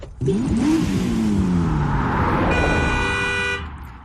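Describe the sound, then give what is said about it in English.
A car engine revs loudly, rising at first and then sliding steadily downward in pitch. A sustained horn blast sounds near the end before the noise fades. “That is the sound of a vehicle.”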